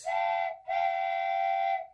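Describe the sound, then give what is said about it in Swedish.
Train whistle sounding as a train departs: two steady, harmonic blasts, a short one and then a longer sustained one, over a low rumble. “Nu går tåget!”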